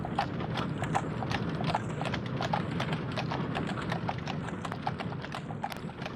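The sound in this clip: Horses pull a three-horse cart carrying passengers, their hooves making a rapid, continuous clip-clop of many beats at a steady, even pace.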